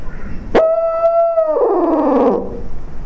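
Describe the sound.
Single hoot from an owl hooter tube call used in turkey hunting: a sharp click, then a sustained hollow tone that drops lower and trails off, heard alone.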